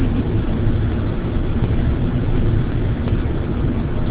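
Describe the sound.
Steady low engine rumble heard from inside a moving car, a continuous droning noise that holds evenly throughout with no talk.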